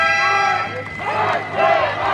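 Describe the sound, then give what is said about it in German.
Hundreds of VW factory workers protest with whistles outside the gate of the Zwickau plant: shrill whistling rings steadily over loud crowd noise and shouting, with no break throughout. “Obwohl ziemlich spontan angekündigt, haben am Mittag hunderte Mitarbeiter vor dem Tor des VW-Werks in Zwickau Posten bezogen. Mit Trillerpfeifen und Transparenten protestieren sie gegen die Sparpläne der Konzernspitze.”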